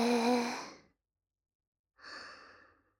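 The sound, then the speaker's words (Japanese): Breath pushed out through the mouth during a guided breathing exercise: two soft, airy breaths, each just under a second long, separated by about a second of silence, with no talking. “口から吐いて。もう一回。吸って。”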